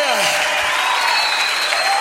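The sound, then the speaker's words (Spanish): Loud applause at a worship gathering, dense sustained clapping from a crowd that holds steady from start to finish, with voices faintly beneath. “dale fuerte ese aplauso”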